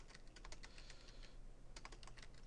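Faint typing of a name on a computer keyboard during Windows setup, with quick, continuous key clicks and a brief lull before the typing resumes.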